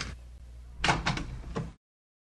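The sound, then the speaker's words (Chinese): A door is opened, giving a few quick clunks and rattles of moderate loudness over a quiet hum, then cutting off abruptly. “对不起啊，我马上开门啊。”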